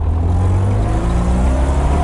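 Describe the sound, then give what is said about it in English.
Steady engine drone of a 1966 Morris Minor Tourer convertible on the move, a low, even rumble with no voices. “Take this car that I'm driving at the moment, for example. It's a 1966 Morris Minor Tourer.”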